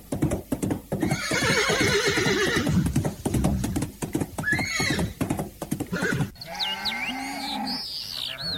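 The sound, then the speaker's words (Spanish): A mare galloping and neighing: rapid, rhythmic hoofbeats drive on throughout, with shrill whinnies breaking out over them, loud and continuous. “Se fue Pedro entonces montado en la yegua de su madre y galopó y galopó y galopó hasta que llegó a la casa de Don Pancho.”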